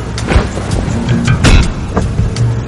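A car driving through a busy city of crowded streets and tall buildings, heard as a steady, loud low rumble of engine and road noise with a few brief swells.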